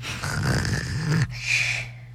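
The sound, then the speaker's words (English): A child pretends to snore, drawing in one rough, rattling snore and then letting out a breathy, hissing exhale. “And that was him pretending to snore because he was bored with that entire thing.”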